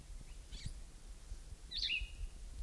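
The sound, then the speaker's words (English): Faint bird calls: a couple of brief, high chirps, the later one brighter and clearer, over a low rumbling background with no voices. “This is bird number one again.”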